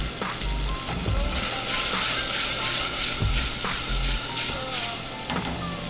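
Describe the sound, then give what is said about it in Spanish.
Sofrito sizzles in a pan over lowered heat, a loud, continuous crackling hiss broken by occasional stirring scrapes, with no talking. “Mientras eso se está sofritando”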